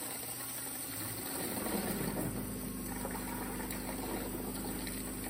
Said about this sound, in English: That's the sound of a water jet cutter, and it's a massive machine that can snip through a lot of different materials.